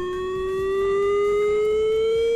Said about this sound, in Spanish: Es la sirena de emergencia química que sonará entre las 10:30 y las 11 en el municipio alavés.